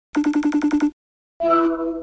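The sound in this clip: An outgoing phone call rings through to Japan: a rapid train of eight short, bright electronic pulses, then a brief silence and a sustained harmonic tone.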